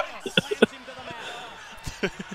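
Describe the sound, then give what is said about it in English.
A wrestler crashes onto the mat from a Black Hole Slam, a few heavy, hollow thuds in a quick cluster, then more impacts later, with voices talking over them. “Abyss is lumpy. Abyss sucks. He doesn't even have any scars. Black Hole Slam!”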